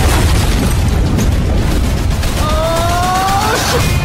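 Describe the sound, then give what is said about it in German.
A powerful sci-fi weapon fires in a loud, sustained roaring blast of booms and crackle that fills the whole clip, with thin whining tones appearing near the end. “Schlagen Sie vor, dass wir die mächtigste Waffe der Galaxie ausprobieren? Zum Spaß? Ja! Drücken Sie den Knopf.”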